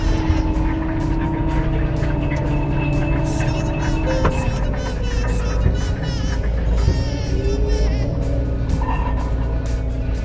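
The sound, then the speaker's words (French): A sugar beet harvester driving across a field and lifting beets while steering itself on autoguidance along six rows: a loud, unbroken engine drone with sustained humming tones and occasional faint mechanical clanks. “dès qu'on a 6 rangs de betterave, je la mets en autoguidage, je touche plus à rien. Donc elle est capable de prendre un virage, d'arracher les betteraves sur des grandes distances.”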